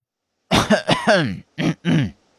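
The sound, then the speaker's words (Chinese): A narrator's voice acts out throat clearing followed by two deliberate coughs, a cluster of rough, voiced bursts and then two short separate coughs. “神棍清了清嗓子，很是郑重其事地咳嗽了两声”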